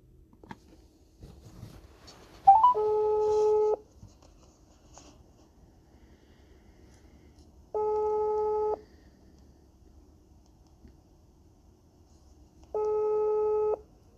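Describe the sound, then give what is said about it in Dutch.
A telephone call is dialled and rings out: a few faint clicks come first, then three evenly spaced ringing tones, each about a second long, separated by long silent gaps. No voices are heard. “Ik ga haar nu bellen om nog wat vragen te stellen.”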